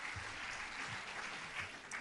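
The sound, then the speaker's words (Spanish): Applause fills a whole assembly hall at an awards ceremony after a flamenco performance: a faint, continuous patter of many hands, steady throughout, with no speech. “Y así acaba este vídeo, con el aplauso, por supuesto, de todo el Salón de Actos”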